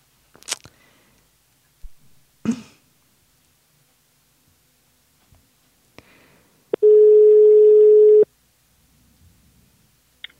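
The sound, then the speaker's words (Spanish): A telephone tone after a call is accidentally hung up: one loud, steady tone holding for over a second, with a few sharp clicks scattered before it in otherwise near silence. “Se ha cortado. No, es que he creído que entraba una llamada, lo he cortado y he cortado a la propia Amelia”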